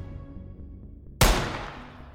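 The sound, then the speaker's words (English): A single gunshot fired at close range bursts out of a low, quiet rumble as a sudden loud crack, then fades over about a second. “Fired from a distance of just half an inch, the first shot ripped through Amabile's back”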